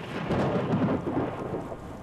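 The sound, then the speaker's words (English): Thunder rolling as a low, sustained rumble during heavy rain in a storm that floods the road, with a dense hiss of rain running throughout. “we're just gonna shelter inside for a moment because the rain is coming down. You can probably hear the thunder in the background”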